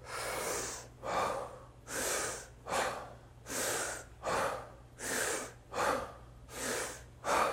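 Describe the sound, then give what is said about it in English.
Deep breaths through the nose or mouth in a guided breathing exercise: many forceful inhales and exhales follow one another in a steady, rhythmic cycle, each a loud rushing burst of air, with no talk. “And we can do the deep breaths through our nose or our mouth? Nose or mouth.”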